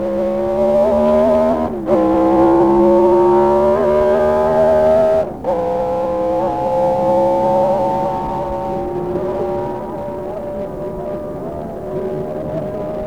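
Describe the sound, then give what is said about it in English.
A Moto Guzzi V8 racing motorcycle roars during the 1957 Golden Jubilee Senior TT race, its exhaust a loud, sustained, harmonically rich drone. The note breaks off in two brief dips, then carries on somewhat quieter toward the end. “But for ardent collectors of exhaust notes, I simply can't resist a quick flashback to the Golden Jubilee Senior Race of 1957, when we last heard the battle cry of the V8 Gutsy.”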